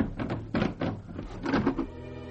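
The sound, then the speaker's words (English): A cupboard being opened in a dark room gives a series of strained, creaking groans with a sharp onset, moderately loud and alone, without voices. “I began to explore the room, dark though it was, and I came across some sort of cupboard.”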